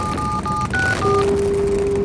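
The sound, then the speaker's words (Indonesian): Telephone keypad tones ring out as a number is dialed to call a relative: a few short beeps in quick succession, then a steady lower tone that holds to the end. “Puri Serawa yang masih dalam perjalanan langsung menelpon saudaranya di Hastinapura.”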